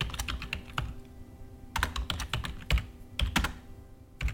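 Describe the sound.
Typing a message on a computer keyboard: irregular runs of quick key clicks broken by short pauses, moderately quiet and with no voices.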